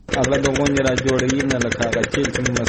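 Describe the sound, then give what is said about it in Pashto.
A diesel generator pumps irrigation water for a four-jerib wheat field in Dand district, Kandahar. It gives a fast, steady chugging pulse under a talking voice. “عزت الله د کندهار په ډن ولسوالۍ کې خپل څلور جریبه د غنمو کښت د جنراتور په وسیله اوبه کوي.”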